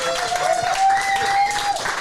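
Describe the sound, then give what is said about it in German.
Audience applause greets a former basketball coach at a live event: steady, dense clapping from many hands, sustained evenly throughout. “Erstmal einen riesengroßen Applaus.”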